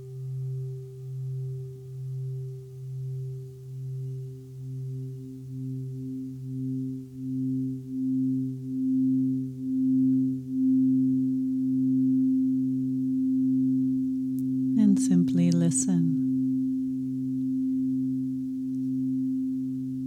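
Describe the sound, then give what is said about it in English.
Tibetan singing bowls ringing during a meditation: two low, sustained tones hum with a slow, wavering pulse that swells and fades, a short noisy burst cuts in near the end, and a voice speaks one brief word. “Now we'll begin to introduce the sound of the singing bowls. And just let this be a new sound that enters your awareness.”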